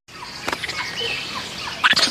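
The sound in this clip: A monkey gives high, squeaky chirps and chatter: brief scattered calls over a couple of seconds, ending in a louder burst of shrill squeaks.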